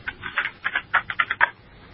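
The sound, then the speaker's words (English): Fast typing on a keyboard, a rapid burst of many crisp clicking keystrokes for about a second and a half before it stops. “Are you one of those people that can type like 600 words per minute? About 120, yes. I can. It sounds like it.”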